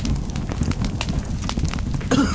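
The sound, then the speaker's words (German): Fire is burning a staircase, making a dense, continuous crackle and rumble that stays loud throughout, with sharper pops scattered across it. “Die Treppe fängt schon Feuer.”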